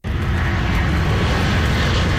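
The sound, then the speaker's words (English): Loud aircraft engine roar from a plane carrying firefighters from Mexico as it touches down in Abbotsford, a steady, dense rumble that holds evenly for the whole short stretch with no voices. “A plane carrying over 100 firefighters from Mexico touched down in Abbotsford.”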